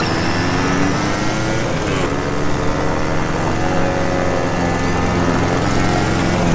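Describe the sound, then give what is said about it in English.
A lawn mower engine runs as a loud, continuous buzzing drone that holds steady for over six seconds, with no pauses or clear changes in speed. “Lawnmower.”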